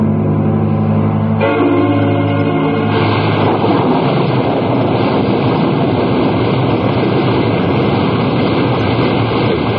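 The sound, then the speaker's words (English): A storm roars over the ocean near a porch with a leaking tin roof, making a dense, loud, unbroken wash of wind, rain and surf that holds steady throughout. “I love the wildness of the storm over the ocean.”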